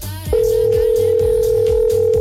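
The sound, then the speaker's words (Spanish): A telephone call ringing out unanswered while a contest listener is being phoned: a loud, steady, single-pitched tone begins after a brief moment and holds unbroken to the end, over a low, rhythmic background. “yo sí contesto, pero no contestan. Estamos llamando por acá”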